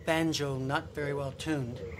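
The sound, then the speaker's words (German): American green tree frog calling with twangy, nasal croaks like a badly tuned banjo, a short series of loud, buzzy calls following one another closely. “ist der amerikanische grüne Laubfrosch. Die zirpende Art ist der graue.”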